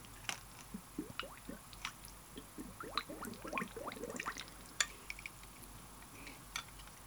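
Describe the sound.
A peach cocktail being mixed, with faint wet squishes, drips and quick liquid clicks in a loose, irregular run, quiet and alone with no voices.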